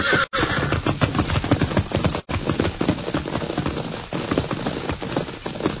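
A frightened herd of horses neighs amid a dense, rapid clatter that stays loud and continuous throughout, broken only by two very brief gaps.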